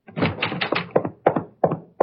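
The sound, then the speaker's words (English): A door thrown open with force: a loud, rapid run of heavy knocks and thuds, dense at first, then a few separate hard hits. “I'll throw the door open and step in.”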